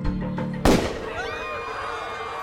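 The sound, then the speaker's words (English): A single sharp revolver gunshot, fired at a president on a street, bursts out loudly after a low steady hum and then leaves a ringing, fading tail. “Sara fired. The bullet ricocheted off the wall behind Ford, just narrowly missing the 38th President of the United States.”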